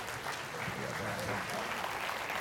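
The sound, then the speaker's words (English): Applause for a church choir after a service song: steady dense clapping from a crowd, loud and continuous throughout, with faint voices mixed into the wash of claps. “Thank you guys so much. And thank you, choir. Let's give them a big round of applause.”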